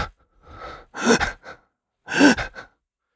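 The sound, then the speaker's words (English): A voice imitates heavy, unsteady breathing of a wounded man with an IV in his arm: a few ragged, gasping breaths of uneven length and loudness, separated by short pauses. “Breathing very, heavily, unsteadily. Like, every breath is just like...”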